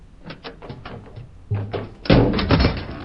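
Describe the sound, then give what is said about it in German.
A door on the side of a locomotive opening: a few light clicks and taps, then a heavier thunk, followed by a louder, broad rush of rattling noise as it swings open, with no talking. “Und just in diesem Moment öffnet sich die Tür an der Seite der Lok.”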